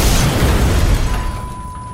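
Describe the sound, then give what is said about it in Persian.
Hand grenade exploding beside a train in wartime: a loud, broad boom that fills the start, then rumbles and fades over about two seconds. “نارنجک را کشید و پرتابش کرد. در کمتر از چند ثانیه”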